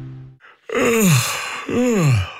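A person yawning, heard as two long, breathy vocal exhalations, each sliding downward in pitch and fairly loud, after a brief steady tone at the start.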